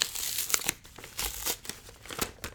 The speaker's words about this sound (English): Oh, it's like a fatter manila envelope than I'm used to. Okay, so I'm going to go ahead and open that.